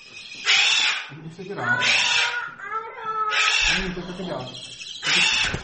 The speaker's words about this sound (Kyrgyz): Маймылдар, Түштүк Америка тотукуштары, ташбакалар узун далистин эки жагындагы бөлмөлөрдө жашайт.